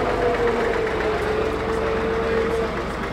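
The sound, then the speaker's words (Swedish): Steady engine drone from a red and yellow double tractor driving past at a tractor show near a John Deere tent, a continuous low rumble with a droning tonal hum that holds level throughout. “Nu kommer det en dubbeltraktor körande förbi oss här.”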